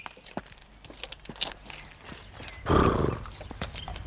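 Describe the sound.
Hooves clip-clop as a horse draws a carriage: irregular sharp knocks run throughout, with a short, louder rough burst past the midpoint.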